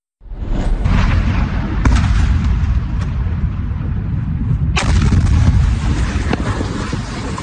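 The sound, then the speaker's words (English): Explosions from an Iranian missile strike in Jordan, heard as a continuous loud, rumbling roar broken by a few sharp cracking bursts. No voices. “That is an Iranian missile strike you are watching that killed three Americans in Jordan back in July.”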